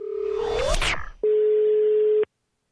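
Telephone line tones heard while placing a call. A steady tone is broken by swooping, rising chirps, then one clean ringing tone lasts about a second and ends in silence.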